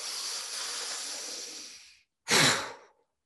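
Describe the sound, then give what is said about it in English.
A deep breath in and out: a long, steady airy inhale lasting about two seconds, a brief pause, then a short, forceful sighing exhale that trails off into silence. “Ready, deep breath in.”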